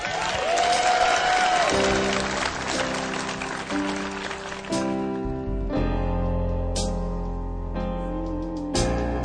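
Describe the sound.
An audience applauds to welcome a young baritone singer to the stage, a dense, steady clapping that soon has instrumental music starting beneath it.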